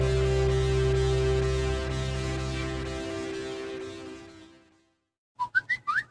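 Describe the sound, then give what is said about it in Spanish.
A ringtone-like jingle marking the start of an ad break: a few quick, bright, whistle-like notes that play alone after earlier music fades out into a brief silence. “No, no es tu teléfono, es el inicio del espacio publicitario.”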